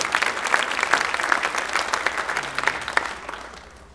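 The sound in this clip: A standing audience applauds to welcome the last speaker at a church service, steady loud clapping that gradually fades toward the end.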